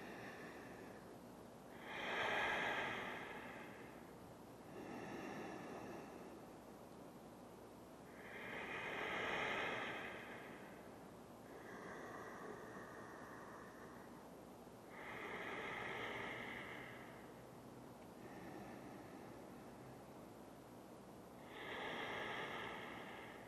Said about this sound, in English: We stay here for 5 deep breaths.